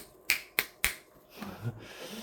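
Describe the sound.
Three crisp, sharp finger snaps come in quick, evenly spaced succession and stand out clearly, followed by a low, quiet background.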